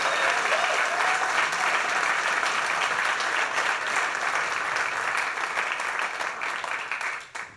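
An audience applauds a band at a live music show: dense, sustained clapping at an even level throughout, tapering off right at the end.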